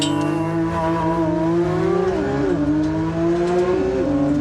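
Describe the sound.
A sports car makes a launch control start and accelerates hard. The loud engine note climbs steadily in pitch and drops sharply twice at gear changes.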